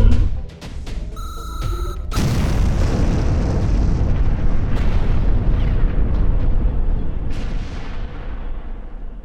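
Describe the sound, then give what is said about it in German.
A bomb detonates in a staged drama scene: a sudden loud blast about two seconds in, followed by a long, heavy rumbling roar that holds steady and slowly thins toward the end, with no talk. “Zündet die Bombe.”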